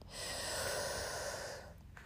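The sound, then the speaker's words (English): A single deep breath, heard as a soft, airy rush of air that holds steady for over a second and then fades out, with no talking. “let's take 2 deep breaths. Breathe in and out. And one more. Breathe in”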